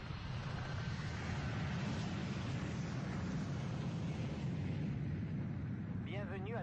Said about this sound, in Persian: هواپیما در فرودگاه شارل دوگل پاریس فرود میاد.